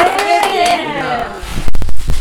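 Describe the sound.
Hand clapping for a child rewarded in a learning game breaks out after a person speaks. A short, loud burst of claps closes the moment.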